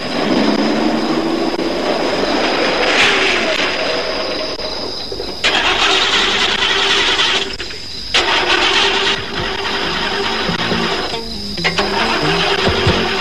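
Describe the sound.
A car engine cranks and fails to start, making a rough, continuous grinding noise that stops briefly a few times before each new attempt, with no talk.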